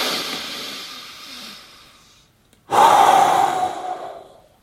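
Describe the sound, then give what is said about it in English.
Forceful breathing: one long, softer rush of air fades out, then after a brief silence a second breath bursts in loudly and tapers away. “Let your stomach fucking bulge out when you breathe. Breathe forcefully.”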